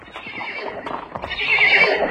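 A horse neighs, a shrill, wavering whinny that swells in the second half over faint hoof clatter and shuffling.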